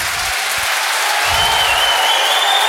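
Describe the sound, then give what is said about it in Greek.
A football stadium crowd gives prolonged applause as a substitute enters the match. The clapping is broad and continuous and grows slightly louder, with a few low thuds in the opening second. “και ο Μοκόκα περνάει στο παιχνίδι, γι' αυτό και το παρατεταμένο χειροκρότημα.”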